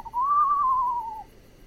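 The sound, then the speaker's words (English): A screech owl's call played from a recording: one smooth whistled note lasting about a second that rises slightly and then sags before it fades. It is clear and heard alone. “And there is the screech owl. It's really beautiful recordings.”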